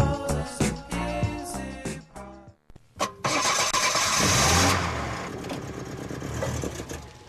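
An old car engine cranks and starts after a short stretch of music and a brief gap, catching with a loud rough roar and then settling into a steady, uneven running rumble.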